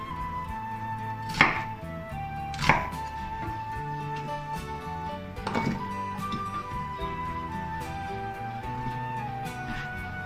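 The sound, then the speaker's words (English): A knife chops onions into small chunks on a board. A few sharp, separate strikes land at uneven intervals over a steady tonal background. “Cut the onions into small chunks.”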